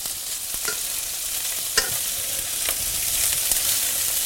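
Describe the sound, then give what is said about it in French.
Fish frying in a pan, a steady hissing sizzle with a few sharp crackles and pops scattered through it. “Quand les bords du poisson commencent à être cuits comme ça, en principe, on peut les tourner.”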